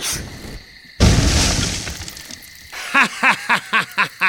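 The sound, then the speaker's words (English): Magical fiery blasts explode nearby structures: one sudden, loud crackling boom that decays over a second or so, followed by a run of six short calls, each falling in pitch. “demonstrated his magical aptitude by exploding nearby structures with fiery blasts.”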